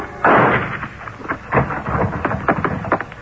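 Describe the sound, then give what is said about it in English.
Gunshots ring out inside a low barn-like building at the rear of a property: one loud, sharp blast followed by a few softer bangs and thuds. “The shots came from a low barn-like building at the rear of the property”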